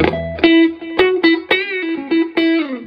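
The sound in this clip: Electric guitar notes from a Stratocaster on its neck pickup, run through an Echo Park delay: a few picked single notes and short phrases, each ringing with bright overtones and a lingering tail, played alone at moderate volume.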